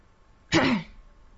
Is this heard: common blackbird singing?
no